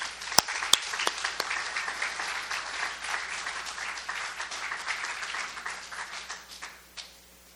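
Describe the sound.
Audience applause at a recovery meeting as a speaker is welcomed: a dense, steady wash of many hands clapping that holds at an even level, then thins and dies away near the end.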